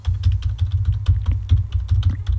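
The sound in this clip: A quick burst of keyboard tapping as a phone number is typed, the key clicks coming fast and fairly even over a low thudding undertone.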